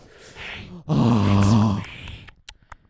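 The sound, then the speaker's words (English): Heavy breathing pushed close into a microphone, peaking in a loud, low, voiced groan-like exhale of about a second, with softer breathy noise before and a few faint clicks after. “I'm going to breathe heavily into this mic for our ASMR viewers”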